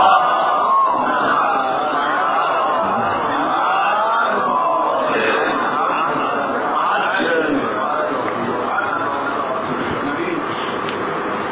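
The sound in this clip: An audience recites salawat together in unison, a dense, sustained blend of many voices that stays steady and loud throughout.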